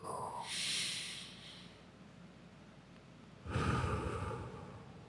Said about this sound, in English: Breathe in through your nose and let the air go down all the way to your toes.